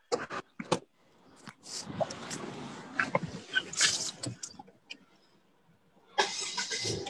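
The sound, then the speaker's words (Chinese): A car engine starts: a few short knocks give way to a rough, rumbling crank and run lasting several seconds, followed by a later burst of noise. “你是不是准备开车啦？开车。”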